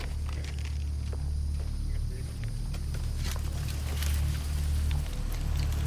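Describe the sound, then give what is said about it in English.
An excavator coming down a trail gives off a heavy, steady low engine drone with a deep harmonic hum. The sound holds at an even level, with scattered faint clanks and rustles over the top. “That thing sounds like an excavator.”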